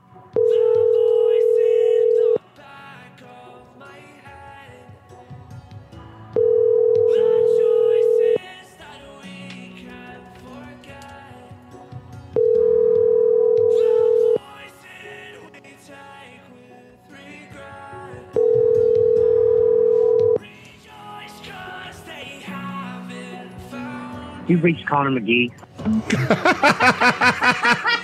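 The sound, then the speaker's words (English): An outgoing telephone call rings out while the caller waits for an answer. Four long, steady ring tones repeat at even intervals over other sound, followed by a louder burst at the end. “All right. Let's give Connor a call.”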